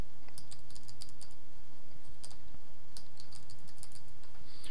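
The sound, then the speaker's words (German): Computer keyboard typing into a text editor: rapid, irregular keystroke clicks come in short bursts with brief pauses between them, over a low steady hum, with no talk. “Enter, öffne die Datei mit dem Texteditor und schreibe jetzt die Dateien rein, die ich verstecken möchte.”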